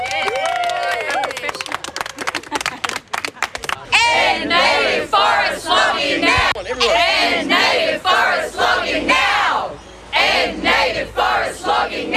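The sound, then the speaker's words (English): Supporters of forest protectors outside Ballina Courthouse shout and chant together; rapid clapping opens, then loud rhythmic cries rise in bursts with brief pauses between them. “So that's the sound of the crowd of passionate supporters for those courageous and articulate forest protectors whose justice was delayed yesterday at Ballina Courthouse yet again”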